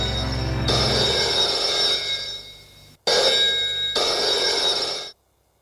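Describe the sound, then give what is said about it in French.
A telephone bell rings in two long, loud metallic bursts. Each is a shrill, trilling ring that holds and then fades or cuts off, with a short gap between them. “En fin de matinée, le téléphone sonne.”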